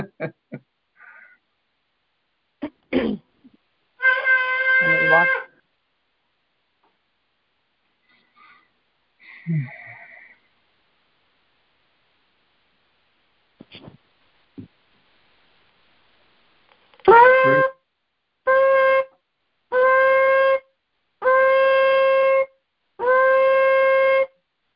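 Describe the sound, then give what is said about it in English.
A shofar, a ram's horn, is blown in bright, buzzy blasts. One sustained note comes first, then after a long pause five blasts in quick succession, the first swooping up into pitch. Scattered faint clicks and rustles sit between them. “The shofar is a battle cry. The shofar is the sound of God's army. It goes before his army, and it claims a victory before the army gets there.”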